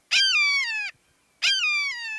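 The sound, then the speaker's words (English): Two loud, clear calls from a red-shouldered hawk. Each is a drawn-out, descending harmonic 'kee-yer' lasting under a second, with a short silence between them. “A red-shouldered hawk calls kiyu as it makes one last circle before seeking out some high roosting place.”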